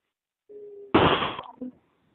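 Telephone line tone after a dropped call: a brief steady low beep, a burst of harsh crackling static, then a second short beep.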